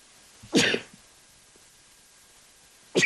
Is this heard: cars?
no